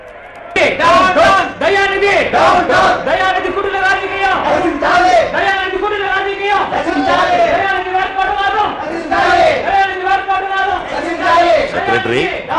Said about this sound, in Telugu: ఏమిటా బయట కేక? జనం గుమిగూడారు, వాళ్ళకి ఏం కావాలి?